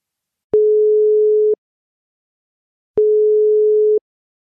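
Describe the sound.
A telephone call tone sounds while a call is dialled: two steady, mid-pitched one-second beeps separated by a long pause, loud and alone.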